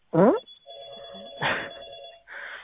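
A telephone rings in a few tonal bursts, the steady, bright ring tone sounding clear and moderately loud with short gaps between rings.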